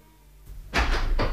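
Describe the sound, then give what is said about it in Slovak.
A door is closed in a hurry: a faint brush of movement over a low hum, then a solid thud followed by a second, shorter knock. “Rýchlo som za starcom zavrel dvere a vybehol hore.”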